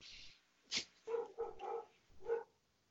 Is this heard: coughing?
no

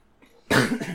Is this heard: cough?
yes

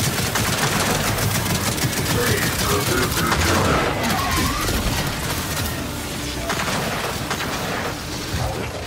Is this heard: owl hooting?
no

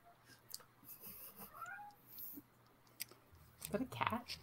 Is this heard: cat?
yes

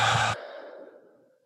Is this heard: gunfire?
no

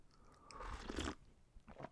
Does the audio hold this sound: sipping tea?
yes

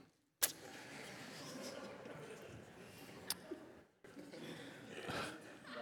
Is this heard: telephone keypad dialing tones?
no

